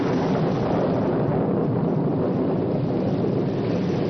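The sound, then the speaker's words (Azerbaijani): Heavy, unceasing rain of a subtropical winter in southern Azerbaijan, with thunder: a loud, dense, continuous roar that stays steady throughout, with no distinct clap standing out. “Subtropik bölgənin adəti üzrə göy gürültüsü və sanki heç vaxt kəsməyəcək yağışı, palçıq və gölməçələr”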